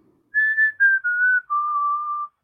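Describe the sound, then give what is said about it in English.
A person whistles a short tune, recreating one a stranger in a trench coat whistled twice. A few clear sustained notes step steadily downward in pitch and are heard alone without talk. “he was whistling this tune that was like, he whistled it two times and it was, I hope this will even pick up on my mic”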